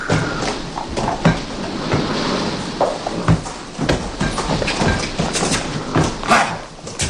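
Horses clip-clopping as they pull a carriage: a steady run of many hoofbeats over a dense, rumbling layer of wheel and road noise.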